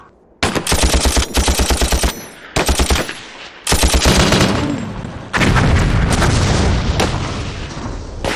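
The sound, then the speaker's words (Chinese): Rapid machine gun fire and gunshots in a battle assault, loud chattering bursts in several long strings, then a heavy, continuous roar of massed fire with deep booms and no voices. “那就别怪我的枪炮不认人了。 李团长，你要三思啊！ 给老子打！”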